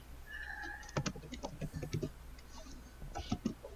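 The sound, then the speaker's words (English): Fast, quiet typing on a computer keyboard: a quick run of clicks, a short pause, then a second brief burst of keystrokes. “I'm gonna look up his name. I can't just type Margaret into IMDb.”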